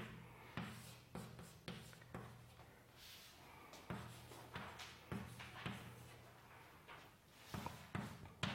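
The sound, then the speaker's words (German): Handwriting of an equation: many short, irregular scratching and tapping strokes of the writing tool, faint throughout, over a steady low hum. “Also schreibe ich das mal ausführlich hin.”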